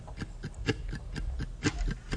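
Muted mandolin clicks imitate a ticking clock in a steady, even rhythm of soft, short taps with no talking.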